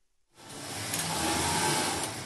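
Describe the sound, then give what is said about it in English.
Dozens of sewing machines whir together on a garment factory floor near Dhaka, Bangladesh. After a brief silence, a dense, steady mechanical hum and hiss swells in and holds, with no voices. “Dozens of sewing machines buzz inside the shop floor of this garment factory near Dhaka.”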